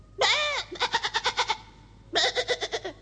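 Goat-like bleating in a children's story. There are two quavering, high, harmonic cries. The first opens with a long wavering note and then breaks into a run of rapid pulses. The second is a shorter pulsed bleat.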